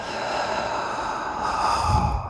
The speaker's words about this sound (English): breathe in the energy of perseverance, the will to not give up, the strength to make it through and exhale.